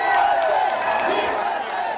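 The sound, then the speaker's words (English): Crowd cheering on the Marble Plaza outside the Supreme Court as people react to a court decision on marriage, a steady, fairly loud wash of many mixed voices that holds throughout. “The court's decision was cheered by many waiting for it on the Marble Plaza outside the court building”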